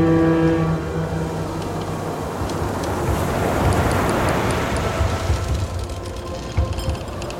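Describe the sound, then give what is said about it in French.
Ocean liner Victoria at sea, sailing from Brindisi toward Egypt: a steady, loud rumble of engine and rushing water, with a low horn-like tone at the start that soon fades into the wash. “Tout au sud, à Brindisi, elle embarque à bord du paquebot Victoria, cap sur l'Égypte.”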